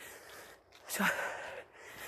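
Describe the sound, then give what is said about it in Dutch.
A person takes one deep breath in while raising the shoulders during a breathing exercise. It is a soft, airy rush that swells briefly and fades, faint and alone. “Schouders omhoog, inademen.”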